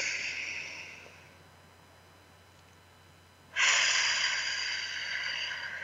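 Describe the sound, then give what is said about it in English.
A deep breath taken during a guided relaxation, breathed in through the nose and out through pursed lips as if through a straw: a soft airy breath fades away, then after a quiet pause a louder, steady rush of breath follows. “Breathe out through your mouth like a straw. Close your eyes. You're absolutely safe. Take another breath.”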